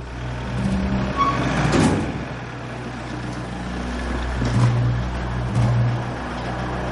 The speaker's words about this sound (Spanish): Por la noche, un coche entra en el garaje de una lujosa residencia.